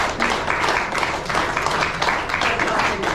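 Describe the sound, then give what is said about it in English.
An audience claps their hands in a steady, full wash that pulses slightly in loudness, with no single claps standing out. It carries on evenly for the whole span. “Give a little hand clap.”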